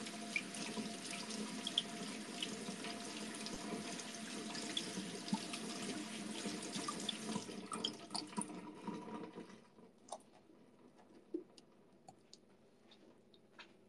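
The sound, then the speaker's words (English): Tap water runs steadily into a sink as canned beans are rinsed under it. The flow stops near the end, leaving faint scattered drips and small clicks. “Washing beans.”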